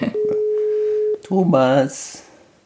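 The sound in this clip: Telephone tone on an outgoing call: a steady pure tone holds for about a second, then a brief warbling burst of tones follows before the line falls quiet.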